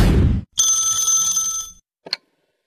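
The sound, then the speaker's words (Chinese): A telephone rings for an incoming call from an unknown number: a bright, sustained electronic ringing tone of about a second, followed by one short chirp, after a brief burst of rougher noise at the start. “正想着呢，又一个陌生来电”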